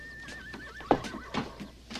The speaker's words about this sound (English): The horse, the horse.